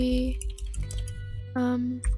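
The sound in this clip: Computer keyboard typing during essay writing: many quick, light key clicks patter along unevenly while a voice talks over them.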